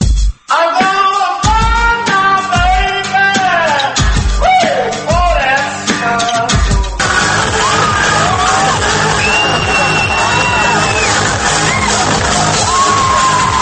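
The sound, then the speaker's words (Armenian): An excited crowd of young Iranians cheers at a Nowruz new year celebration in Armenia, with shouts, yells and high whoops piling over one another in a loud, continuous din. “Այսպես են տոնում Նովրուզ Բայրամը իրանական նոր տարին իրանցիները Հայաստանում։”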